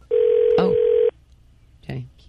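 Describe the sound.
A telephone ring tone sounds as a call goes out to a Barnes & Noble store: one steady, loud tone at an unchanging pitch lasting about a second. A voice speaks briefly over it and again shortly after.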